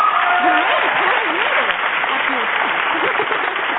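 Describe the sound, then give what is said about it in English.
Audience applause, a dense, steady wash of clapping with a narrow, muffled tone. A person talks over it throughout. “Hey, it sounds like I even brought my own audience.”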